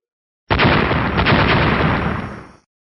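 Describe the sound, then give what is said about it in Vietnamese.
A huge, thunderous explosion in a fantasy battle scene, as a sky-filling burst of lightning erupts. It hits abruptly and holds as a loud, dense roar for about two seconds, then fades out, with no voices. “Tiếng nổ mạnh, thanh thế kinh người.”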